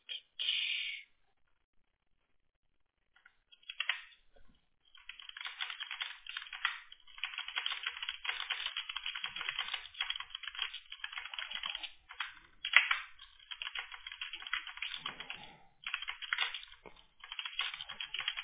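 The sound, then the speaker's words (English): Fast typing on a computer keyboard by someone who types 80 words per minute: a short burst of key clatter, a pause, then a long, dense, continuous stream of rapid clicks with no voices. “Man, you type fast. Yeah, I do. I do. I type 80 words per minute.”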